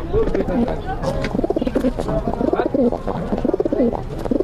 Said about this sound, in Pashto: راځه چې د کوتر خونې ته یو ځل لاړ شو. سامه ده. دا کوتر خانه ده؟ دا کوتر خانه ده.